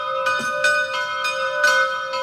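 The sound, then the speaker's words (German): Midday church bells ringing in Salzburg: many overlapping metallic strokes at an uneven, steady pace over a sustained ringing hum, moderately loud, with no voices. “In gut 10 Minuten ist es soweit, da läuten im ganzen Land die Glocken. Und bei uns in Radio Salzburg auch wieder. Ist Tradition. Ich glaube, ohne würde was fehlen. Das sind die Glocken von heute.”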